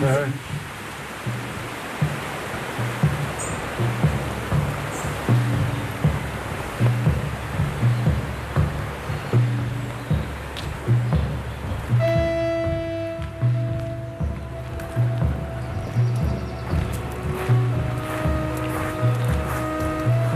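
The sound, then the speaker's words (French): The river Loir flows just below a weir, a steady rushing wash of water that goes on throughout. Midway, a few steady tones join the flow. “Ah, mais c'est le Loir. On a le bruit du Loir. On a... Ah oui, on est juste après le vannage, là.”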